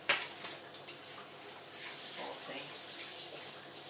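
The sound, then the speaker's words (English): Running water from a tap as hands are washed with antibacterial soap, a steady, fairly quiet hiss and splash that carries on evenly after a brief louder burst at the start. “Just washing my hands with antibacterial.”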